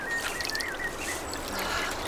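A small brook gurgles at the foot of a hillside beneath holm oaks. The watery rush and bubbling stay soft and continuous, with faint high chirps drifting over it.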